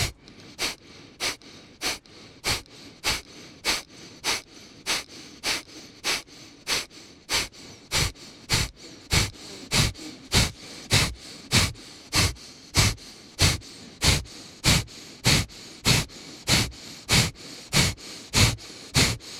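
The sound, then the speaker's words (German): Forceful, sharp exhalations during a breathing exercise with the chest held up and the belly tensed: many rapid puffs of breath in a steady, even rhythm, growing stronger through the second half. “Lass den Brustkorb oben und beginn Bauch fest anzuspannen beim Ausatmen und so kräftig auszuatmen. Das Einatmen geschieht von selbst. Atme in deinem Rhythmus.”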